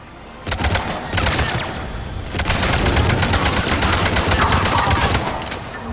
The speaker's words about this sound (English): That was too many bullets. I'm getting sloppy.